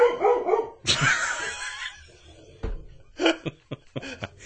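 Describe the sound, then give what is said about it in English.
Dogs barking excitedly in irregular bursts, with a longer noisy stretch early on and a run of short, sharp yips and barks toward the end. “Got the dogs fired up.”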